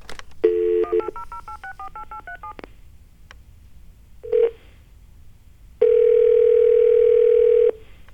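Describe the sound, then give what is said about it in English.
A telephone number is dialed on keypad tones. A quick run of many short beeps is followed, after a pause, by one brief tone and then a long, steady, loud tone lasting about two seconds. “Let's give them a call at 1-800-TWITTER.”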